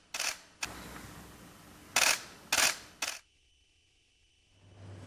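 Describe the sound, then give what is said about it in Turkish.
Camera shutters click at a photo session with teachers, five crisp snaps at uneven intervals, followed by a faint steady hum. “Cumhurbaşkanı Erdoğan, öğretmenlerle sohbet ettikten sonra fotoğraf da çektirdi.”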